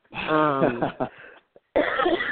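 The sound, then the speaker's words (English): An adult with a cold coughs. A rough, voiced cough is followed by a brief pause and then a harsher, noisy cough burst. “excuse me. And I have had a bit of a cold, and I coughed through last week's podcast, and I'll probably do the same.”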